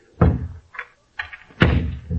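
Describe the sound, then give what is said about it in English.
Doors of a study in a chateau being closed: two heavy thuds with a few lighter clicks and knocks between them, each with a sharp onset and a short decay. “A moment. I close the doors.”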